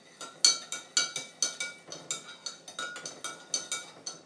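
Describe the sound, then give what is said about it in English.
A big tablespoon stirs a hot drink in a large mug, making many light metallic clinks in a quick, fairly regular rhythm, each with a short ringing decay. The clinks are faint overall, with no talking. “I'm using a big tablespoon to stir this because it's a big mug”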